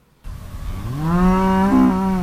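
A cow named Marigold gives one long, deep moo in a pasture at a Lexington dairy farm on a chilly spring morning. The moo climbs slightly in pitch, then holds as a steady low bellow.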